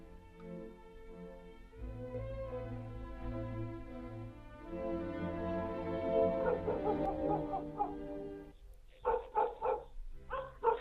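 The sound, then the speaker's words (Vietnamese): Dog barking persistently at night at the front of a village house, heard as a quick run of sharp barks near the end, after a long, sustained tonal drone. “Tiếng chó sủa nhấm nhằng đầu hè”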